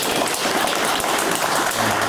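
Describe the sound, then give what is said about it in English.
Polite applause, a brief, dense round of clapping that stays steady and fairly loud from start to finish, with no voices. “Nothing. A polite clap.”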